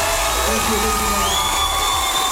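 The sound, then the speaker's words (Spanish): A concert crowd cheers for the singer's band. Loud, continuous crowd noise carries whoops and a high whistle, sustained at full level throughout. “quiero que aprovechamos y le damos un fuerte aplauso, sí, a mis músicos.”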